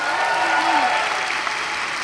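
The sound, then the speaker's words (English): A church audience applauds to welcome a guest preacher to the pulpit at a morning service. The clapping is dense, continuous and loud for the whole stretch. “So I have the great privilege to welcome to our pulpit this morning Dr. Davia Crutchfield. Y'all give it up for her.”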